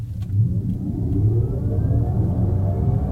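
An electric car plays its synthetic driving sound in the "dynamic" mode: a steady, low, engine-like rumble heard alone, with a thin tone above it that climbs slowly in pitch.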